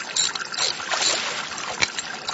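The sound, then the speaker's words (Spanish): Water trickles with faint clicking and handling noises while someone tinkers with a water meter, a soft, hissy, uneven wash of sound with one sharper tap near the end. “Papi, ¿qué estás haciendo? Un arreglito acá en el contador de agua, mi amor.”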